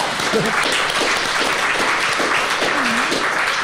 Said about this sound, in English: Come on, give him a round.